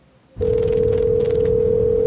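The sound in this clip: A telephone ring tone on an outgoing call: a steady, single-pitched electronic tone starts abruptly and holds without a break, over a constant low rumble and hiss.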